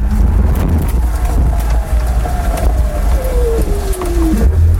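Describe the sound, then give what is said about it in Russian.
Small three-wheeled car driven at full throttle, its engine a loud, continuous rumbling drone mixed with wind noise, holding steady throughout with no voices. “Жму газ в пол и поехали. Вот только ехать нужно аккуратно и все время помнить, что три колеса – это не то же самое, что четыре.”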